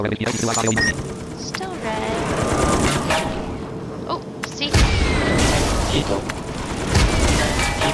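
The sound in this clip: Video game gunshots crackle in rapid, dense bursts of loud automatic fire that continue throughout, with heavier booming hits near the middle and end over a constant noisy background, and voices are present.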